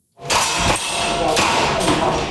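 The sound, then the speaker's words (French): Compressed-air guns fire at an indoor shooting practice in a basement where about a dozen civilians train, giving four sharp cracks spread over a steady hiss of background noise. “Dans un sous-sol de Taipei, une douzaine de civils s'exercent au tir avec des armes à air comprimées.”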